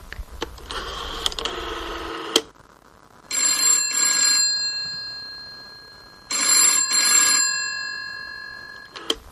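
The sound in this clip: A telephone rings during a call, its bright, high bell coming in repeated double bursts with quiet gaps between them.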